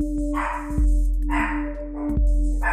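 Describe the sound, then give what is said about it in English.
A dog barks a few times in muffled bursts over a steady low hum, with no talk. “You be quiet. Mama working. I know I hear that other doggy. It's just saying hello. You don't have to respond.”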